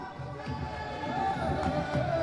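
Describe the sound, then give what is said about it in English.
A crowd celebrating at Kenyatta's inauguration ceremony in a stadium: a steady, moderately loud roar of cheering with a voice talking over it. “If you you can hear the celebration here, but just outside the stadium, a few miles from here, police are battling it out with protesters.”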